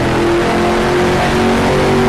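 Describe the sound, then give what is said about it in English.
A race car engine revs loudly and continuously in a racing video game while lapping a circuit, a dense, steady, harmonic-rich drone with no voices over it. “Just enjoying that sound as much as we can. Once we get onto the front straightaway, we'll try to do a silent lap. And just enjoy the pure sound of this car for a whole lap around the circuit here.”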